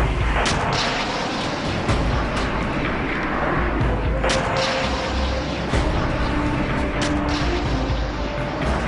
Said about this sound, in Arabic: وميض كالبرد وصوت كالرعد ملأ الأفق، انطلق الصاروخان.